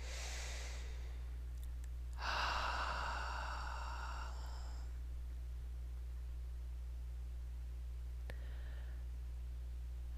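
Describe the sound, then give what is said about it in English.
Deep breathing during a guided relaxation session: a breath at the start, a longer, louder breath a couple of seconds later and a faint one near the end, over a steady low hum. “And let's take some nice deep breaths, please.”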